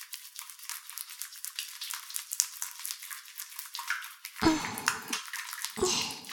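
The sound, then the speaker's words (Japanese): Wet, sudsy scrubbing of hair being washed with water, worked carefully from the roots, gives a steady hissy rustle that grows fuller and louder in bursts toward the end, with no talking. “しっかり洗っていきますね。まずは根元から丁寧に洗い残しのないように。”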